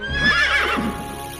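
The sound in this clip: Horses neighing: one loud, harmonic whinny that wavers and falls in pitch over about a second, then fades into a low steady background.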